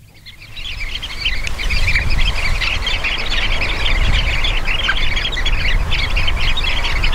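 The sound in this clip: Dense high chirping calls of sanderlings (Calidris alba), a large flock calling continuously and loudly over a low rumbling background.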